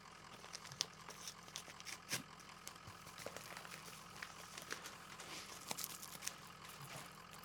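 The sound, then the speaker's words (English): Faint rustling and crinkling as mail is sorted through by hand, many small irregular paper crackles and soft tears scattered across the whole stretch, very quiet and with no talk. “What are you guys doing back there? Just looking through the mail.”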